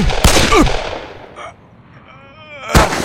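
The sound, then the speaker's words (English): Revolver gunshots in a Western gunfight: loud, sharp bangs, a couple close together early and another near the end, separated by quieter rumbling decay. “Smith cocked his Remington 44, and the muzzle rose slowly. Bodine shot him twice in the chest.”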